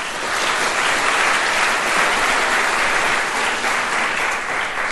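Audience applause welcoming former diplomat Tom Pickering at a debate on the Iran nuclear deal, loud, steady clapping from many hands that holds for about five seconds without speech.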